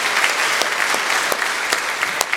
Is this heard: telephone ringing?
no